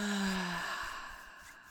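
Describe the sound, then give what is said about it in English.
An audible exhale out through the mouth during a guided breathing exercise: one soft, breathy rush of air that starts fuller and fades away gradually, with no talk. “One more time, in through your nose, an audible exhale out,”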